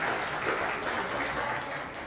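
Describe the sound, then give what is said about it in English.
Applause from a church audience: steady, dense clapping that stays fairly faint and even throughout, easing slightly toward the end. “So, applause for y'all.”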